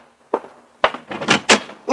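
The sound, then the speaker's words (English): Dull thumps of a newspaper hitting an apartment door at dawn: one soft knock, then a quick cluster of louder, uneven knocks and rattles, with no talking. “the jarring thump of the paper grazing my door told me a new dawn was with us.”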